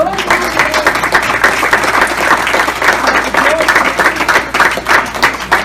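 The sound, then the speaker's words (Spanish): Loud audience applause for actors, a thick, unbroken wash of clapping that holds steady throughout, with some voices mixed into the crowd noise. “Así que vamos a dar un aplauso a nuestros actores.”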